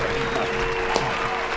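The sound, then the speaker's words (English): Dense, steady applause from a group during a tabletop role-playing game session: a continuous wash of many hands clapping at an even, fairly strong level throughout, with no clear build in loudness. “It's like slow clap builds to an uproarious applause.”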